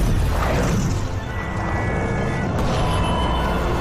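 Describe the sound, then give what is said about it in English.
A loud roaring rush fills the scene as a boom tube opens and magma falls through to a planet below, a dramatic sound effect: a dense, sustained rumble that dips briefly near one second, then continues at full force. “As John recharges his ring, a boom tube opens and magma falls through to the planet below.”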